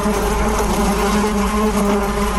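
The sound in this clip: Honeybees buzzing in dense numbers around a honey producer's hives: a loud, steady, unbroken drone with a low hum and layered overtones that holds level throughout, with no voices.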